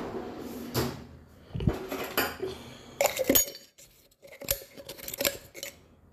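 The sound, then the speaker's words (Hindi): A spoon scrapes out leftover coffee powder stuck to the bottom of an emptied container, giving several bursts of scraping and metallic clinks separated by short pauses. “अब ये powder नीचे बचा हुआ है चिपका रहता है यार ये इसमें चम्मच डालना पड़ेगा ये चिपका हुआ जो पाउडर है”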